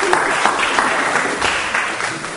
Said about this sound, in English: Can you give all of our kids a massive round of applause?